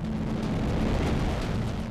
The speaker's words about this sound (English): Breaking news overnight. North Korea test fired an intercontinental ballistic missile.